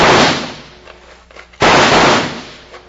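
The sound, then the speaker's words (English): Two loud gunshots fired into a cave in an old-time radio drama, each a sharp blast with a long rumbling decay, the second coming after a quieter gap. “Throw a few slugs in first and let's see what happens.”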